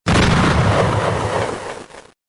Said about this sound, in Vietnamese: toàn bộ gara để xe sau lưng đã nổ tung sau một trận ánh sáng chói mắt